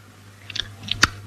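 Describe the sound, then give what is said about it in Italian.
Chewing: a few short, crisp, moist clicks and smacks, sparse and brief, over a low steady hum. “E con sta stronza che so dura che sta mastica, ma che facciamoci?”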